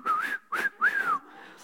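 A person whistles a short tune in three clear melodic phrases with gliding pitch, each note bright and steady, followed by a fainter trailing sound.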